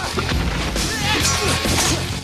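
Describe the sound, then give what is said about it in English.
A sword slices through a massive stalagmite during a sword fight in an ice cave. A dense, loud crash and whack sound fills the whole clip, with short swishing impacts layered over heavy rumbling. “Talagaro strikes Kull's sword with his. They fight and Kull slices a massive stalagmite.”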